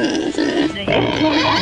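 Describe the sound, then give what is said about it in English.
Pig grunt sound effect in a price-guessing game: a loud, rough, continuous snorting grunt that dips briefly once before carrying on to the end. “And the pig says it is higher than 589.”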